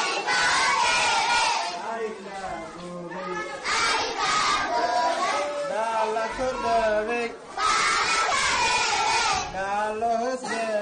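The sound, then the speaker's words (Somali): Hundreds of children, orphaned and street girls and boys in Mogadishu, shout loudly together in rising and falling waves of chant-like cries, with several strong surges of voices and no break. “codkan aad maqlaysaan waa caruur boqolaal ah oo isugu jira agoon iyo ciyaal derbi, waxayna ka kooban yihiin gabdho iyo wiilal, waxaana lagu xanaaneeyaa xarun lagu magacaabo Badbaado Orfano”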